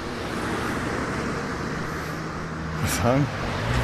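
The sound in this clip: Cars driving out of the town of Werneck, a steady roar of road traffic that swells briefly near the end as a vehicle passes, then settles back to a constant rush.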